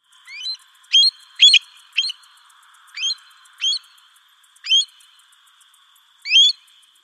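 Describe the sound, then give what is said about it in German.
Eurasian stone-curlew calls: a series of short, shrill whistled notes at irregular intervals, some doubled, over an otherwise quiet background. “Das ist ein Triel. Der gehört zu den Wartvögeln.”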